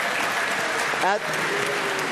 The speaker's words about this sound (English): We got some rich people who were booing that. Wait, you cheer for diabetes and you boo $5,000?